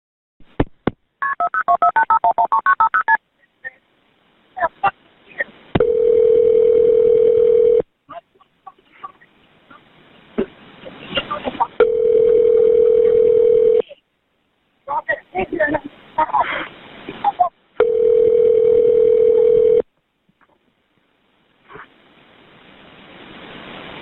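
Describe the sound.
A telephone call to emergency dispatch: a burst of touch-tone dialing beeps, then three long, steady ringing tones separated by short clicks and pauses as the call connects.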